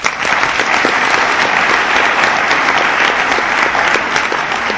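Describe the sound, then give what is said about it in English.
Applause at an Al-Anon recovery meeting, a loud, dense and steady wash of clapping from a group that holds at an even level for the whole stretch. “Let's give them a hand.”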